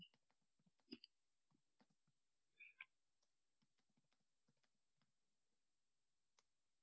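Someone types on a computer keyboard during a quiz, producing faint, scattered keystroke clicks with a few slightly louder taps early on and long quiet gaps between them.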